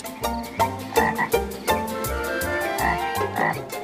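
An old, bulging-eyed frog in a forest croaks in a run of deep, rhythmic pulses, each croak loud and repeated many times in quick succession.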